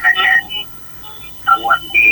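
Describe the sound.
An incoming call on a radio call-in line: thin, band-limited phone audio with short tonal bursts, a voice on the line, and a steady tone at the end.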